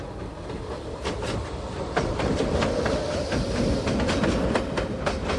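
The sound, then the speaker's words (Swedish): A fast train passes a level crossing, its wheels clattering in a rapid, rhythmic clickety-clack over a loud, steady rumble that holds throughout, with no voices. “Och titta, där kommer ju tåget. Ja. Och vad fort det kör.”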